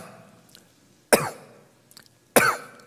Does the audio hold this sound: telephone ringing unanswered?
no